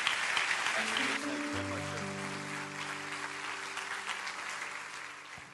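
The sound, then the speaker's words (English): A church audience applauds to welcome a guest pastor: dense, steady clapping fills the whole stretch, with sustained musical tones coming in partway through and holding under the applause. “Would you put your hands together and welcome our friend”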